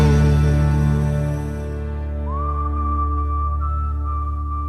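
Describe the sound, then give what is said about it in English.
A Christmas carol tune whistled over sustained musical accompaniment: the whistle slides up into a long held note, then steps to another steady note, clear above the backing. “Just whistle Wenceslas and out you go.”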